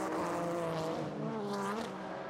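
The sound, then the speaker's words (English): A GT race car passing during the Petit Le Mans endurance race, its engine a loud, continuous roar whose pitch shifts as it goes by. “Through goes Madison Snow underneath us, second of the GT cars.”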